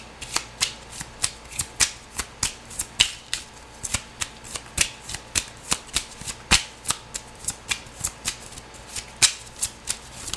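Tarot cards being shuffled and drawn, with many crisp, papery flicks in a quick, steady rhythm. The flicks stay sharp and fairly loud throughout, and no one speaks.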